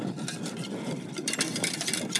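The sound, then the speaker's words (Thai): Stirring a mixture in a pot on the stove, a continuous scraping swish with repeated rhythmic strokes, steady and moderately loud, with no voices. “เดี๋ยวต้องคนอีกนิดนึงนะคะเดี๋ยวจะเอาลงจากเตานะคะ”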